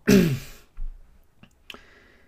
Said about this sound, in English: excuse me, clear my throat here